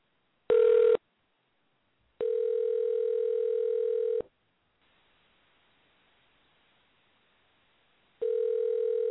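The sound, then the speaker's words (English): Telephone line tones sound while an international number is dialed: a short burst, then a steady, loud tone lasting about two seconds, a quiet hissing pause, and the same tone returning. “All right, and I'm dialing like out of the country too, which is kind of crazy. Let's try this.”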